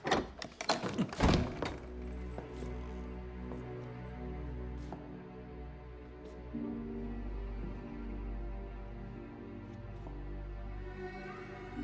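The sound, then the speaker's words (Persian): A door being kicked open: a cluster of heavy, loud thumping impacts in the first second and a half, then a low, steady hum with faint scattered clicks. “دیگه کافیه، درو با لگد باز میکنم.”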